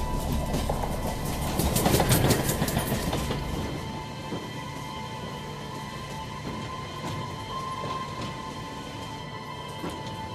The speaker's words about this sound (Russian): Мимо проезжает вагон.